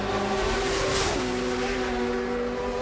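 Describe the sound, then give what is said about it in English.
Motorbike engines roar in a loud, continuous drone with steady harmonic tones that drop in pitch once partway through, with no talk over them. “I can't hear anything over these bikes.”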